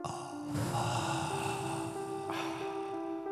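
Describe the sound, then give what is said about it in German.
Slow deep breathing, one long breath drawn in and then let out, as soft airy noise over a quiet, sustained musical drone. “Tief einatmen. Und ausatmen.”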